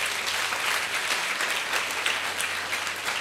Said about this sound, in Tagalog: Palakpakan natin si Lord.